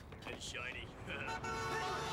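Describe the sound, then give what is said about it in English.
A car horn honks at a pedestrian stepping off the curb, a bright sustained toot over a low rumble of traffic, with people talking. “Ooh, look out! Can't just go stepping off the curb in front of cars.”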